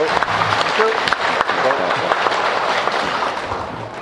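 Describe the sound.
Audience applause welcoming a professor at a nursing academic event: steady, dense clapping from many hands that tapers slightly toward the end.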